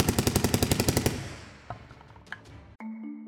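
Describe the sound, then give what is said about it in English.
Rapid automatic gunfire from a gun emptying an entire drum of bullets: a loud, tight burst of many shots in quick succession lasting about a second, then a fading tail with a couple of faint knocks, before a steady electronic tone starts. “you just see shells exploding out from this thing as he unloads an entire drum of bullets.”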